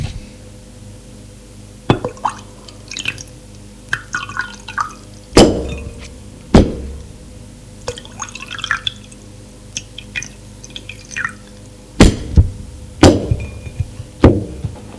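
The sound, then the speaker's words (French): Sharp glass clinks and small liquid drips as a bottle and two glasses are set on a table and a drink is poured, with a few distinct clinks spaced apart over a soft background. “revient avec une bouteille et deux verres qu'elle pose sur la table et sert.”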